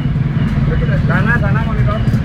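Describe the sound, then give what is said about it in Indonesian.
Slow, overloaded sugarcane truck on the road near Kalimeri, Bululawang, a steady low engine rumble under continuous talk. “Waduh, di depannya ini kayaknya ada truk tebu juga nih. Oh, bukan ya. Ada satu truk tebu,”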